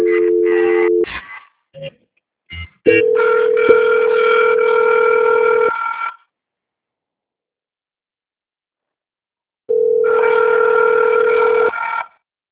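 Telephone line tones sound while a call is being transferred: a steady electronic tone, a few short blips, then a longer sustained tone, a silent pause, and the tone returning, all loud and buzzy.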